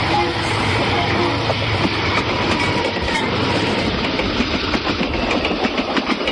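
Interior of a passenger train travelling to La Rioja: a continuous broad rumbling roar with faint rhythmic clatter from the wheels, steady in loudness throughout.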